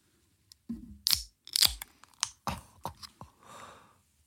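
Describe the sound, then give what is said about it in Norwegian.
A summer beer is opened up close: crinkly crunching and clicking, then two sharp cracks with brief bright bursts, followed by softer rustles and a faint fizzing tail. “jeg skal nå åpne sommerpils for dere.”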